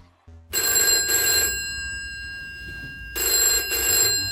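A telephone bell rings for an incoming call. There are two loud bursts of ringing with a quiet gap between them, and no talking.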